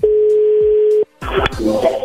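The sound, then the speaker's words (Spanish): A steady, mid-pitched telephone dial tone holds for about a second, cuts off, and after a brief gap gives way to a burst of clattering, mixed noise with short tonal blips from the dialing phone line. “A ver, se está marcando de nuevo.”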